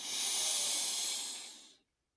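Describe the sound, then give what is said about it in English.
A single deep cleansing breath drawn in: a steady, airy hiss lasting about two seconds that tapers off at the end, heard alone. “Our last cleansing breath before you enter her. In.”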